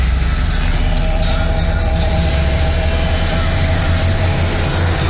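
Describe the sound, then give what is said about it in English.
A constant loud mechanical rush with a low humming drone while a car is being filled up at a gas station, unbroken and even in level for the whole stretch, with no talking. “there's a speaker out here on the building, the gas station. So I'm filling up.”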